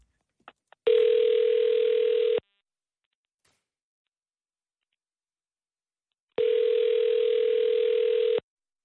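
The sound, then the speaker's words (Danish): Telephone line tones while calling a number: a few small clicks, then two steady, mid-pitched tones, the first about one and a half seconds and the second about two seconds long, separated by roughly four seconds of silence. “Jeg har fundet nummeret nu. Jamen, så ring lige. Skal jeg lige ringe?”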